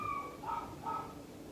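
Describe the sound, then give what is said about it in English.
A dog gives a few short, high, faint whining yips in quick succession, each a brief tonal cry. “The dog agreed.”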